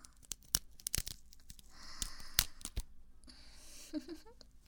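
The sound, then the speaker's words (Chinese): Nylon stockings being torn by hand, giving several sharp crackling rips followed by a longer, sustained tearing stretch, fairly loud with no voices. “撕开它。撕丝袜如果能缓解你的压力的话，也是一个合适的办法。”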